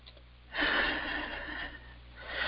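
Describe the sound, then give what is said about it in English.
A deep breath: after a brief quiet moment comes a long, airy rush of breathing that slowly tapers off, then another breath begins at the very end. “Yes. And take a nice deep breath.”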